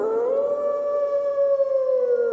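A wolf gives one long, sustained howl, a clear tonal call with rich harmonics that lifts slightly at the start and then holds a steady, fairly high pitch, loud and alone throughout.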